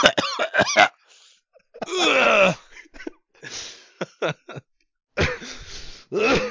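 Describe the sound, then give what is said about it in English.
A person choking and coughing: harsh coughs, throat-clearing and strained groaning moans come in irregular bursts with short pauses between. “That's the sound of me choking on the things I prefer over women.”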